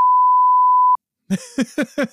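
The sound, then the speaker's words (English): A single censor bleep: a steady, loud, pure tone lasting about a second that cuts out sharply. Silence follows briefly, then speech. “which I'm gonna beep out every time I say”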